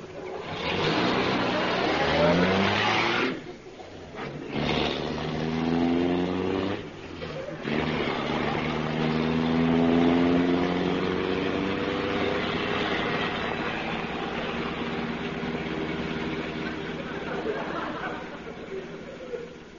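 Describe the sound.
Car engine running as the car drives on, a continuous rough rumble with a steady tone that dips briefly twice near the start, then holds at an even level.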